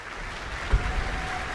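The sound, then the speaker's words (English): Applause from a concert audience for the conductor of a symphony orchestra, a steady, even wash of clapping that holds at moderate level for the whole short stretch, with one brief louder bump midway. “Applause for our conductor, Pietari Inkinen”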